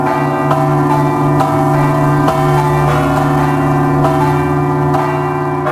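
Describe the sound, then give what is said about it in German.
Church bells ring at a cathedral in Malta, loud and sustained. Several clanging strikes blend into a continuous, ringing hum that carries through the whole stretch. “Sie ist unübersehbar und weisen ja schon die Glocken dahin, die Sie im Hintergrund hören, zur St. John's Cathedral.”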